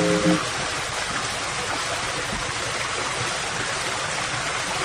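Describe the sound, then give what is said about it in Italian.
Pure water flowing along its stream bed makes a steady, full rushing babble that stays even and unbroken throughout, with no other sounds standing out. “Questo è il suono dell'acqua più pura del mondo che scorre nel suo letto.”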